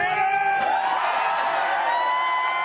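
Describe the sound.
Hundreds of onlookers cheer and whoop as a man makes his final dive into a lake from a ladder after 364 consecutive plunges. The crowd noise is a sustained, fairly even roar of voices.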